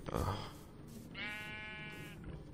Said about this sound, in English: Gonna have a look at the sheep.